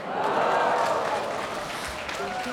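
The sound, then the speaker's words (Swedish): A concert audience cheers and applauds in a loud burst that swells early, then settles into a steadier, slightly quieter roar of clapping and voices. “Jag kan väl säga det igen och så kan ni hurra, eller hur?”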